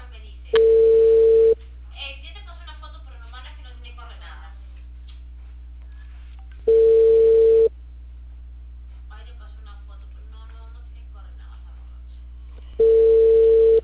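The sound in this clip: Telephone tone while placing a call: a steady mid-pitched tone sounds three times, each about a second long and spaced several seconds apart, with quiet voices talking in the gaps over a low hum.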